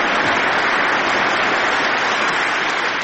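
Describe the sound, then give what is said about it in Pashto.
Members of the US Congress in Washington give Afghan President Ashraf Ghani a standing ovation. The clapping is dense, loud and continuous, forming an unbroken wash of sound throughout. “د اشرف غني دې خبرې ته د کانګرس غړي پاڅېدل او چکچکې ورته وکړه.”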